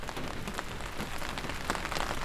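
Rain falling in a dense, steady patter on a surface, even in loudness throughout with scattered sharper drop hits and no voices.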